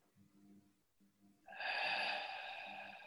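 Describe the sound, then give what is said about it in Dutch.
A long, hissing inhale through the nose during a guided breathing exercise begins about halfway through and holds steady and fairly loud to the end, after softer, low murmurs. “En door de mond. Adem in door de neus.”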